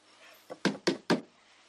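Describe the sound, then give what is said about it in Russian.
A finger taps a wall-mounted barometer: four quick light knocks in an even rhythm, the first one softer than the other three, faint and alone. “Михаил Львович подходит к стене, на которой висит барометр. Заметив на нем неверные показания, стучит по нему пальцем.”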